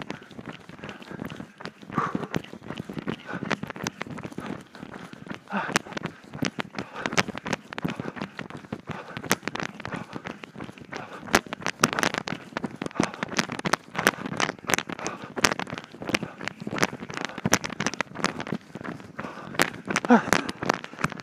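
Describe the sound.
Footsteps of a person running during a running workout: a fast, steady run of thudding impacts that continues for over twenty seconds with a rough, crackly texture.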